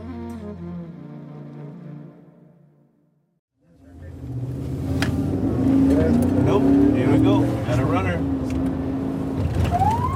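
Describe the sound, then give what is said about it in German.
A border patrol car at the border fence in El Paso speeds up, its engine rumbling in from near silence and building to a loud, steady drone, with voices present. “Orlando Marrero gibt Gas und schaltet kurz das Blaulicht ein.”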